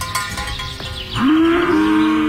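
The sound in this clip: A cow gives one long moo that swoops up sharply at the start, then holds a loud, steady, low drawn-out tone to the end, following a quieter stretch of background noise.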